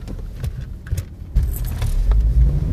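A car starting and driving off: low engine rumble that grows louder and denser about halfway through as the vehicle pulls away, with no voices.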